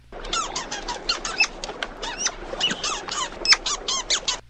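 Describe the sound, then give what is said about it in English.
High squeaky-toy chirps in the movie style of ferret squeaking come in many rapid, bright bursts, fairly faint and with no voices. “I think movies really messed with my perception of ferrets, because I always thought they sounded like this.”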